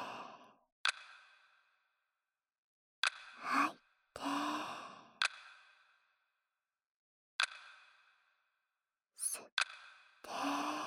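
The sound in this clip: Breathing during a guided relaxation exercise: several audible breaths separated by stretches of silence, with brief sharp clicks between them. The sounds are soft and close, with no talk.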